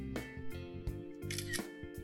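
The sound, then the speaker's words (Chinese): Soft clicks of a phone camera taking a photo, a few brief shutter-like ticks over a faint, steady tonal hum. “相机选择器前置， 也就是荧幕你本来在看的那个地方哈，那然后你就可以来拍照。”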